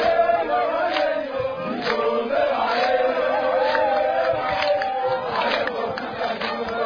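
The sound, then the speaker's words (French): Crowd clamour greets visiting deputies of Équateur province at a site for people expelled from Congo-Brazzaville: many voices shout and call together in a loud, continuous din with brief rising cries. “C'est sous cette clameur que les députés de l'Équateur ont été accueillis dans ce site des expulsés du Congo-Brazzaville.”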